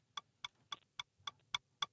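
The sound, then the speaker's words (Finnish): A clock ticks through a five-second countdown in a game, giving seven crisp, evenly spaced ticks at a quick regular pace, faint and alone with no talking. “Kato, kun siellä tikittää kello 5 sekuntia”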